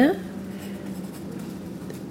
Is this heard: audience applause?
no